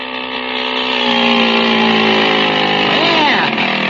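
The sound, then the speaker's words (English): The small motor on a motorized bicycle runs with a steady buzzing drone, loud and even, and its pitch wavers briefly near the end. “I like the motor, Unc. Boy, it runs keen. Oh, pushes the bike right along, does it?”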